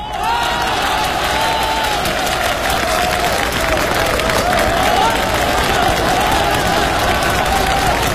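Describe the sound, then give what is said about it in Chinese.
An audience at a live stage show applauds: dense, even clapping and crowd noise holds at a loud, steady level throughout, with faint voices mixed into the crowd. “我看谁敢再鼓掌。”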